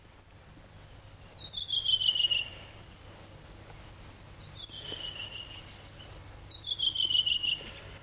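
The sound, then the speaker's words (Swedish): A redwing thrush sings in short, high, whistled phrases. Three bright bursts, each lasting about a second, are separated by pauses over a faint, steady background hum. “Ja, så sitter den där en rödvingetrast och sjunger energiskt, frenetiskt. Sjunger och sjunger och sjunger.”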